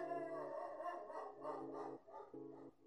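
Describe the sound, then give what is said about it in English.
A big Doberman barks late at night, giving a series of tonal, whining barks in close succession with short gaps between them, fairly loud and steady throughout. “He's barking. Can you guys hear that? Let me know if you can hear him barking. He's a big dog. He's a Doberman.”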